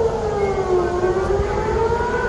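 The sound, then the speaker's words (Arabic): Air raid warning sirens wail during a rocket attack on Tel Aviv and Ashdod, a loud continuous tone whose pitch glides slowly and smoothly, heard alone without voices. “وتزامنا مع الهجوم الصاروخي دوت صفارات الإنذار في تل أبيب وأسدود ومطار بن غوريون”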